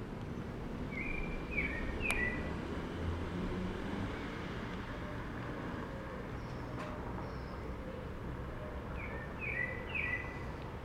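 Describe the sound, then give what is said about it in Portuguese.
Pale-breasted thrush song on a busy street: short, faint warbled phrases near the start and again near the end, over a steady rumble of traffic. “É mais um sabiá barranco. E eles estão em todas.”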